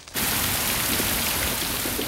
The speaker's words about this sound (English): Rain is pouring down outside an airport terminal building.